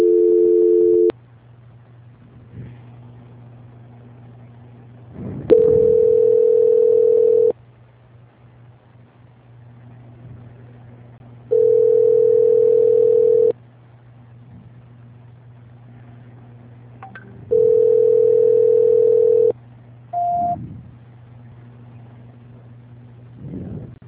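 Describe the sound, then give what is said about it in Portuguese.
Telephone tones while a call is being transferred: steady beeps about two seconds long repeat roughly every six seconds, with one brief higher blip near the end, all over a constant low hum. “Vamos tentar agora a transferir ligação, tá?”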